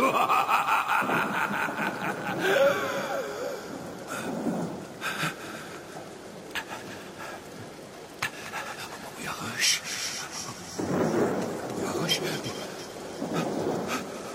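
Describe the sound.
Rain falls steadily with rumbles of thunder throughout, under panting and laughter.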